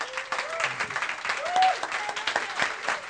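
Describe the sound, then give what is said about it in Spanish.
The Iglesia Cristiana Sembrando la Semilla audience applauds in church with brisk, dense clapping that runs steadily throughout. Voices rise above it at moderate volume. “Yo quiero que la Iglesia Cristiana Sembrando la Semilla den un fuerte aplauso por ello y den agradecimiento.”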